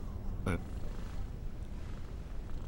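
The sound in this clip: A cat purrs while being petted, a continuous low rumbling hum throughout, with one brief sharp noise near the start.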